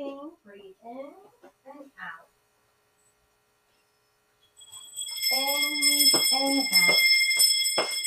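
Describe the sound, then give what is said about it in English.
Bells ringing during a guided breathing session, bright sustained metallic tones that swell in after a pause and shimmer steadily, with a voice talking before and over them. “I love my bells. They're so relaxing.”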